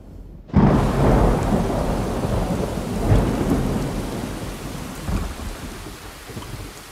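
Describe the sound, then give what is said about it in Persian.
Heavy rain pours down with a loud rumble of thunder that bursts in abruptly and keeps rolling, as the storm leaks in through the walls. The downpour stays steady and dense, with no voices. “بارون کوفتی از دیوارا داره میاد تو.”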